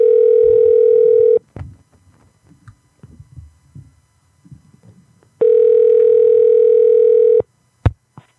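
A telephone call ringing out, two long, steady ring tones separated by a pause with faint background noise between them, followed by a couple of brief clicks at the end.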